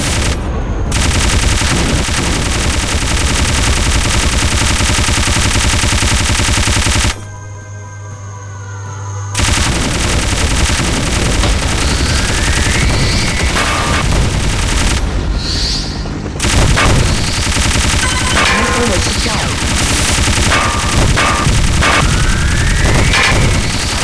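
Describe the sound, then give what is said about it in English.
Machine-gun fire from an arcade shooting video game: loud, dense, continuous rattling bursts that pause briefly partway through. Rising electronic sweep tones are layered over the firing. “Machine gun.”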